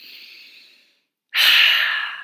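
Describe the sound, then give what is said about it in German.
A deep breath in and out during a guided meditation: a soft, airy inhale fades to a brief silence, then a louder, fuller breathy exhale follows and slowly tapers off. “Und atme einmal nochmal ganz, ganz tief ein”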